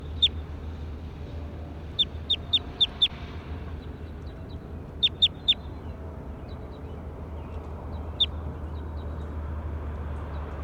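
Recorded bird calls: sharp, high chirps come in quick clusters of three to five, with a lone call later, over a steady low hum.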